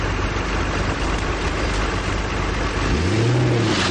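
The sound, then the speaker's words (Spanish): A car engine hums steadily on a mountain road as the car pulls out to pass a stopped van, a low engine tone swelling near the end over constant road noise. “Al ver que no se mueve, decide rebasarla.”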